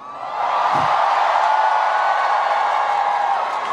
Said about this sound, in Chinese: 很久很久没有听到台湾的朋友们的欢呼声，